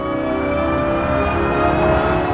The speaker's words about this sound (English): but it still sounds like a car, and it absolutely had to, because we don't want pedestrians to hear it and say, oh, what's that, and get hit by the car.